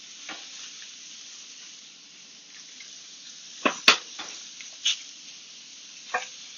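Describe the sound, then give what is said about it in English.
Short ribs sear in a hot pan with a steady, even sizzle throughout, broken by a few sharp clicks and pops partway through. “You want to be able to make sure that all of the rib gets nice and seared and get that perfect brown caramelization.”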